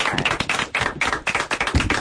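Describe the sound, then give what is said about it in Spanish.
Rhythmic group clapping at a supporters' club (peña) gathering: loud, evenly spaced claps repeating in a quick, steady beat with little else heard. “Bueno, voy a darte un aplauso, tío, venga.”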